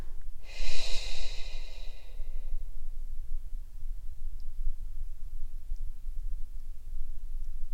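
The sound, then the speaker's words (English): A single long, slow exhale through the mouth during a guided meditation breathing exercise. It is a loud, breathy rush that fades over about two seconds, followed by a steady low background hum and no talk. “exhale out through your mouth with a nice, long, relaxing exhale. You can actually hear your breath if you like”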